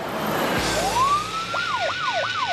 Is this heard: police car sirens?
yes